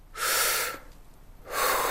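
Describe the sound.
Two deep, airy breaths from a person demonstrating breathwork, each loud and rushing, separated by a short quiet pause.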